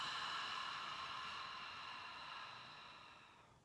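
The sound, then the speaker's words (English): A long, slow breath out through the mouth makes a soft, steady, breathy hiss that gradually fades over several seconds, heard alone and fairly quiet. “deep breath in through the nose. And long breath out through the mouth.”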